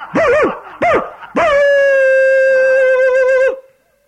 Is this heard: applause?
no